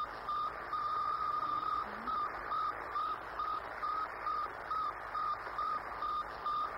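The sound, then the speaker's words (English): Radio signal from the Soviet Sputnik satellite: many evenly spaced, steady electronic beeps in a regular pulsing rhythm, set over a faint bed of hiss and static. “It's the radio signal transmitted by the Soviet Sputnik. Listen now for the sound which forevermore separates the old from the new.”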